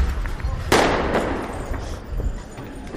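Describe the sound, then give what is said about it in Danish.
Firecrackers thrown during a street riot go off with a sharp, loud bang, quickly followed by a second, weaker crack, over a constant rough background rumble. “De kaster det med kanonslag.”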